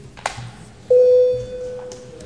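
Electronic bell tone sounded in the Latvian parliament before a vote: a short click, then a loud, steady single-pitched tone that starts about a third of the way in and holds unbroken to the end.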